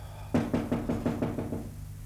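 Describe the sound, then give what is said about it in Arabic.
Knocking on a door in a stage play: a quick, evenly spaced run of hollow raps at moderate loudness, then quiet. “سيمون ينقر على الباب مرة أو مرتين في البداية دون أن يتنبه الشاعر لوجوده.”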